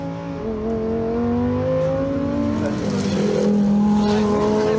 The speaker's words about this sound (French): Oh là là, et ce moteur.